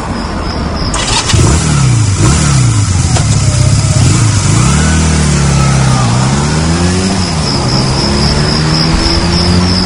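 A car engine drones steadily through a forest at night, its pitch rising and falling as the revs change, loud and continuous throughout.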